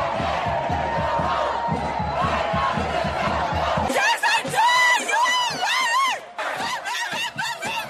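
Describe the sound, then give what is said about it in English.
Protest crowd chanting against Bidenomics. Loud massed voices and shouting give way to rhythmic chanted phrases, with a brief break near the end. “But the Bidenomics, anti-Bidenomics chant was also real. Listen, cut 31.”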